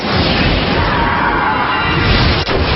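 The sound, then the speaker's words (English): Attack move sound effect from a monster-battle video game as a creature uses a draining attack: a loud, sustained, harsh noisy burst that holds steady and briefly dips near the end. “So choose Gamadrain. Hydric used Gamadrain.”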